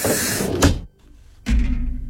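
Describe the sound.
A sci-fi spaceship door opens with a loud, hissing rush of noise. It cuts off into a brief near-silence, followed by a second heavy, rumbling burst that continues to the end.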